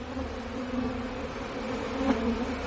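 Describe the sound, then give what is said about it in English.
Bees buzzing as they come and go through a crack in the bricks of a house wall near the roof. A steady low drone hums without a break, with no voices. “Bees enter and exit through a crack in the bricks of the wall near the roof.”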